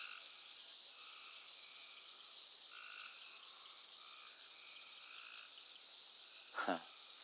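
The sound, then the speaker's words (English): Frogs croak among trees at night alongside crickets: short regular croaks repeat at a steady rhythm over a continuous high insect trill, with a single sharp knock near the end. “And all the frogs and birds and crickets. Trees are just alive with sound.”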